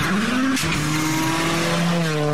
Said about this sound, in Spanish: pisamos el acelerador a fondo